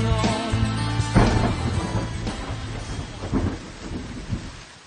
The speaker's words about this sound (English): Started again. Rain coming down.